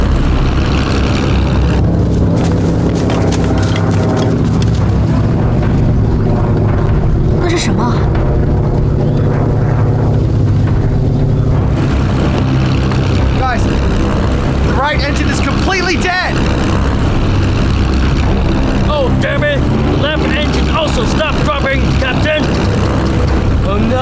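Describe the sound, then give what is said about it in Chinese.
The droning roar of a failing right engine on a B-29 bomber: loud, dense and continuous for the whole stretch, with people talking over it. “Captain! The right engine start dropping! Let's do something! The engine gonna fall!”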